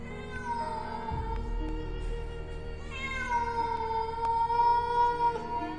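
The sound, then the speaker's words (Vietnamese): A cat meows in one long, drawn-out wailing cry. The tone holds steady across several seconds over a low rumbling background. “Con mèo gục gặc cái đầu, sau đó kêu lên một tiếng.”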